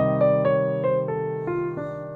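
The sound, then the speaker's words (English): A C minor chromatic arpeggio exercise played an octave lower, with a run of clear notes descending one after another over a steady low sustained tone, without speech. “And again, you could play it down an octave.”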